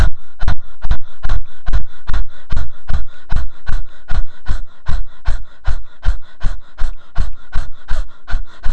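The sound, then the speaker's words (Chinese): A rapid breathing exercise, with quick breaths in through the nose and forceful breaths out through the mouth. It forms a loud, even, panting pulse of many breaths at a fast, steady pace, with no talk. “用鼻子深呼吸，那时候嘴巴闭起来，但是要吐气的时候是用嘴巴完全的吐气。所以呢，你快速呼吸跟快速吐气”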